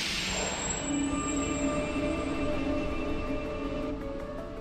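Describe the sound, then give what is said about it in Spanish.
A metro train pulls away after its doors close, a steady rumble of wheels and carriage with thin, high whining tones running above it. No voices are heard. “Se inicia el cierre de puertas. Comienza un viaje sonoro junto a Metro.”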